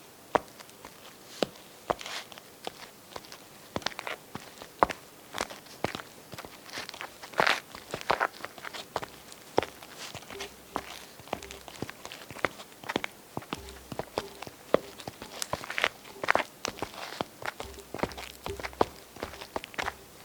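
A person walking, recorded as a footstep take: many irregular, faintly crunchy steps spread across a long stretch, soft and alone with no talk.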